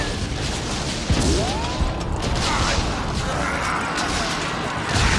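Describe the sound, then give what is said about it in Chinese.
French cannons fire on a defended fort during a battle in a Chinese audio drama. Dense, rumbling barrage noise runs throughout, with a couple of heavier booms standing out. “猛攻护卫，炮火连天，驻守护卫的梁敖、刘胜云等人损失惨重。”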